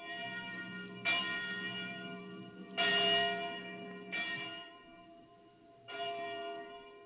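A church bell rings with four distinct strikes over a sustained, humming metallic tone that carries on between them, with no voices.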